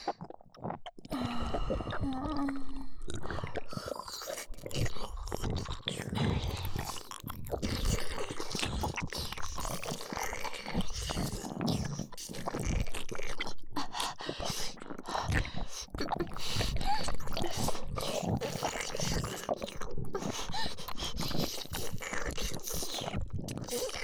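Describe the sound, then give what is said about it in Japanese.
Wet licking and slurping mouth sounds from an intimate role-play recording, many soft, irregular smacks and slurps repeated steadily, with occasional breathy vocal sounds between them. “じゃあ、舐めるね。”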